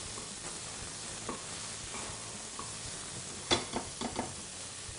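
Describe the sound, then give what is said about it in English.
Shallots sauté in a pan with a faint, steady sizzle. A few light stirring clicks and scrapes cluster near the end. “We don't want to get too much caramelization on the shallots. Slightly, lightly brown is fine.”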